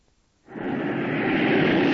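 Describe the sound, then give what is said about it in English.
The Millennium Falcon spaceship roars as it lifts off a battered landing field and flies into space, a broad rushing whoosh that swells in abruptly and holds loud and steady to the end. “The Falcon rose above the battered landing field of Cressia Station and soared into space”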